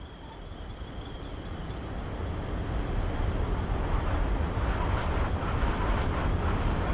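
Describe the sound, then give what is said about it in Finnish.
Wind blows across an open fell as a low, steady roar that slowly strengthens, with no talk. “Sitä vähän tuota tunturi tuulen tuiverusa tähän ensi taustalla. Tosta noin.”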